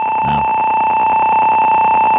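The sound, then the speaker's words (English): Long answering machine beep, a loud, steady electronic tone held unbroken at constant pitch for the whole clip without fading. “And don't forget to wait for the beep. Wait for the beep. It's a long beep, too.”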